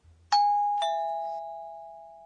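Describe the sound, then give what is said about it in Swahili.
Two-tone doorbell chime ringing at home: two struck notes in quick succession, the second lower, each leaving a clear, loud ring that fades slowly with nothing else heard. “Bila shaka hiyo ni sauti ya kengele nyumbani. Ndiyo, sauti hiyo inaelezwa hivi. Ping pong.”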